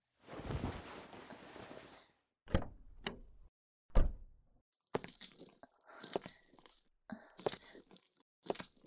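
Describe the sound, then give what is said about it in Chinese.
An elevator door closes with a faint sliding rush, then a few soft, irregular thumps and rustles follow. “老公，你看电梯门都要关上了，我们赶紧的呀！”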